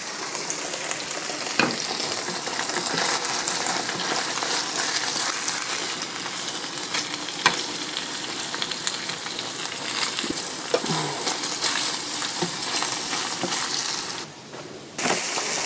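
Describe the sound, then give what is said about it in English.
Food frying in a pan, browned on both sides before vegetables are added: a steady, loud sizzle runs throughout with scattered clicks and taps, dipping briefly quieter near the end. “done on both sides, and then I'm going to add vegetables, let them cook”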